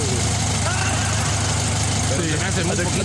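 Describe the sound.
An idling Volkswagen engine gives a steady low hum with a faint vibrating rattle that holds at an even level, while a person talks over it.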